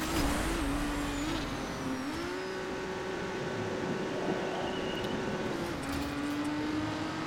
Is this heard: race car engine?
yes